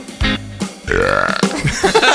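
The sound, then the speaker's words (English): A long, croaky burp ends a playful sung tune about eating apples and bananas. It breaks into several rough, gurgling pulses before trailing off. “That song also ends in a burp.”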